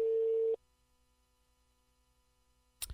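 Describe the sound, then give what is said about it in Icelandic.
A telephone ringing tone on an outgoing call: one steady, flat, mid-pitched tone lasting about half a second, then near silence, with a short burst of noise just before the end. “Hér kemur hringingin.”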